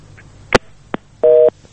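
A telephone disconnect tone after a call is cut off: a couple of sharp clicks, then two steady, mid-pitched beeps of equal length, the second cut short at the end.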